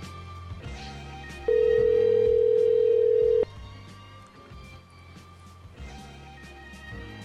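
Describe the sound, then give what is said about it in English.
A telephone sounds as a single steady electronic tone lasting about two seconds, rising loud above a soft musical backing and then cutting off abruptly while the music carries on. “I like the part of the show where the phones ring.”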